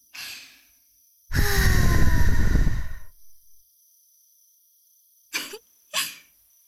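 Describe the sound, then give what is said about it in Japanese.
Air blown into an ear to clear earwax: a soft breath first, then a long, forceful rushing blow, followed after a pause by two short, quick puffs. “耳垢、残ってるといけないから、吹いちゃった。もう一度念入りに。”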